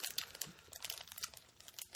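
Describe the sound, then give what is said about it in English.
A package of cocoa powder is opened with many quick, faint crinkles and tearing rustles of packaging, arriving as uneven bursts. “I'm going to open up the cocoa powder, which I know just cocoa powder is awful.”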